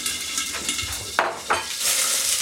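Onions frying in a pan on a cooking show: a steady sizzling hiss runs throughout, with two sharp metallic clinks of a utensil partway through.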